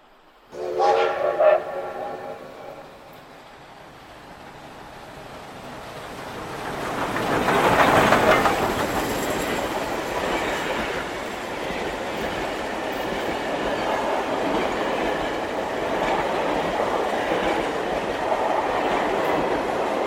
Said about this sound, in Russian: До Львова он добирался 5 суток. Сначала с комфортом на поезде в вагоне 2-го класса